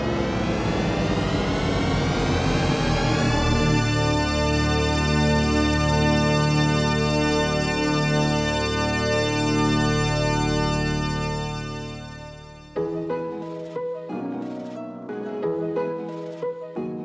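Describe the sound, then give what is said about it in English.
The THX Deep Note audio logo begins as a dense swirl of wandering tones that converge into a huge, sustained, resonant chord, which holds loudly before dropping away. “That somewhat ominous sound you just heard is the THX audio logo known as the Deep Note.”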